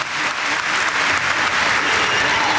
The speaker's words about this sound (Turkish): Sayın Cumhurbaşkanımızı saygılarımızla, kuvvetli alkışlarımızla uğurluyoruz.